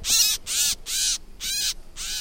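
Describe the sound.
Gray catbird calling: five harsh, raspy, evenly spaced call notes of similar length, loud and rough, with short gaps between them and no talk.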